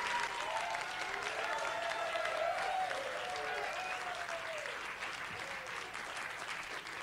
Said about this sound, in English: Tepid applause. Tepid.